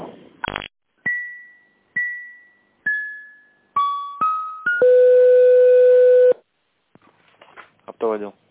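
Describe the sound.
Telephone line tones while a call is transferred: a click, then a run of short decaying beeps at shifting pitches, then a sustained steady multi-tone signal, followed by brief noise and a short voice at the end.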